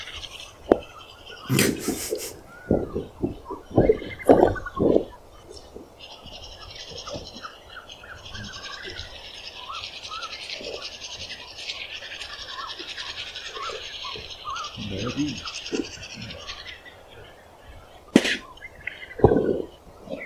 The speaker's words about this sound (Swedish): Och så borsta lite tänder.